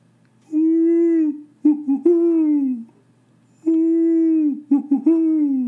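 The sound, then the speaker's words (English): A voice imitates a great horned owl calling at night in a neighbor's yard: a long, low, steady hoot followed by a few shorter, choppy hoots, with the same phrase given twice and separated by silence. “I'm listening to a great horned owl in my neighbor's yard. And this thing is going,”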